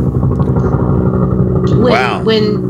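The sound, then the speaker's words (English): A motorcycle engine revs out front, a low, steady rumbling drone running continuously beneath people talking. “Well, that matches the motorcycle that's revving out front.”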